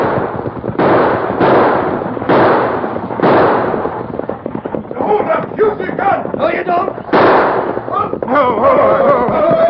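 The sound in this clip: Gunshots ring out in a western radio drama shootout during a holdup of a driver carrying gold: several sharp, loud bursts cut through urgent shouting voices.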